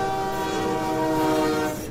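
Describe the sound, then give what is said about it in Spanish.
A train at a station sounds its horn in a loud, sustained chord of steady tones over rumbling rail noise. The horn holds for about two seconds and eases slightly at the end. “5 minutos para el próximo tren.”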